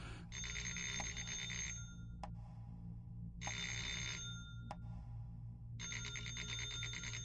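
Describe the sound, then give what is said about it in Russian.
A rattling telephone bell rings in a living room in three long, harsh, buzzing bursts separated by short pauses, over a steady low hum. “Дребезжащий звонок разорвал тишину гостиной, заставив броситься к телефонному аппарату.”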